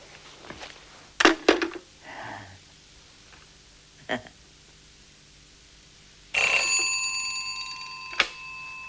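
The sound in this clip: A telephone ringing: a loud, bright, buzzing ring that lasts about two seconds and ends in a sharp click, preceded by a few scattered knocks and rustles over low background hum.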